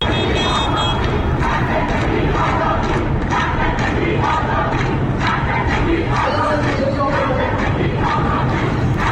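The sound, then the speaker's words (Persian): Lawyers at a bar association rally in Tehran chant protest slogans: a loud, packed crowd of voices shouts continuously in rhythmic bursts, with dense crowd noise filling every gap. “شعارهایی سر دادن، از جمله زن زندگی آزادی، شعارهایی بوده که در ویدیوهای منتشر شده از تجمع کانون وکلا به چشم میخوره. صدای یکی از این ویدیوها رو بشنویم.”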